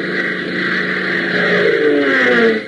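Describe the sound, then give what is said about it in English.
Steady engine drone of a Beechcraft aircraft taking off, loud and continuous with a rough, throbbing tone and no break over the short stretch. “Hop and Temple rush over to the waiting Beechcraft and, after a quick conference with Tank, climb in and take off.”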